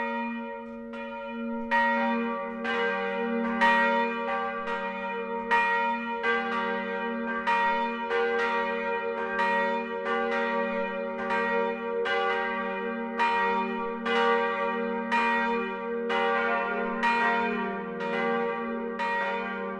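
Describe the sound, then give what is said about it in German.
Church bells of a Protestant church in Büchenbach, Middle Franconia, ring the midday chime: many overlapping strikes sound steadily and loudly throughout, with rich, sustained metallic overtones and no voices. “Das Mittagsläuten kommt heute von der evangelischen St. Willibaldskirche im mittelfränkischen Büchenbach.”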